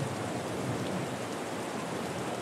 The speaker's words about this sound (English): A light rain is falling here at Evermore Field